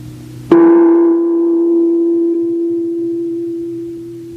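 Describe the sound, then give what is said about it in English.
A radio time signal tone strikes suddenly and holds as one steady, bell-like pitch with bright overtones, slowly fading over about four seconds with no voices. “At the sound of the tone, it will be 11 p.m.”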